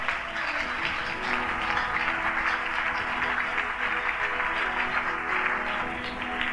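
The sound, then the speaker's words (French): A church audience applauding God during a French-language worship service, a thick, sustained roar of clapping hands that stays loud and even from start to finish. “Est-ce que tu peux acclamer Dieu correctement?”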